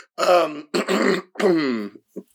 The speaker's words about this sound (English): as I clear my little throat